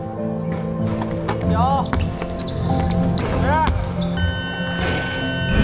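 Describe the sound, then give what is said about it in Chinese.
Basketballs bounce repeatedly during a team's high-intensity shooting practice, with irregular thuds layered under people talking throughout. “为提升队员实战条件下的投篮命中率，每天训练最后阶段，队员们被分成4组，他们要在规定时间内完成高强度的投篮练习。”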